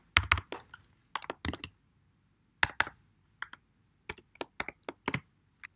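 Typing on a computer keyboard while entering a parameter in FileMaker. Sharp clicking keystrokes come in short, irregular bursts separated by brief pauses, with no voices.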